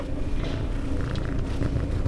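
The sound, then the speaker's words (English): A gray short-haired cat purrs in its cage at an animal shelter, just awake from a nap. The purr is a steady, low rumble that runs without a break for the whole clip. “a gray, short-haired cat named Archie wakes up from a nap, purring in his cage.”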